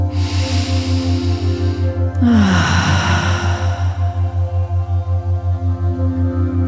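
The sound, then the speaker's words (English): A single deep breath during a guided meditation, a long soft rushing inhale and exhale that rises out of a steady, low, pulsing drone that continues alone afterwards. “Bringing yourself to a seated position with your eyes still closed. Taking your time. Taking a nice deep breath.”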